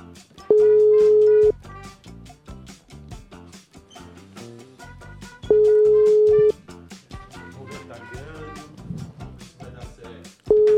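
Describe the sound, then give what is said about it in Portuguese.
Ringback tone of an outgoing phone call: three steady mid-pitched beeps, each about a second long and several seconds apart, the last one cut off. The beeps sound over busy background music. “Ligando pro Léo Coelho, passar um trote pra ele cara que trabalha com vocês não atende vocês.”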